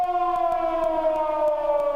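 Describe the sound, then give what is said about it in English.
A civil-defense air raid siren wails loudly and continuously in a rich, harmonic tone. Its pitch sinks slowly, and a regular throbbing pulse runs through it. “I just thought I'd play an air raid siren.”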